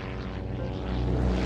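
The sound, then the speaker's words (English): A seaplane's twin propeller engines throb in a steady, monotonous, loud drone with a deep, rough pulsing that stays even throughout, with no voices. “The silver plane gleams in the sunlight as it leaves the grand hotels of Miami Beach behind, its twin propeller engines throbbing monotonously.”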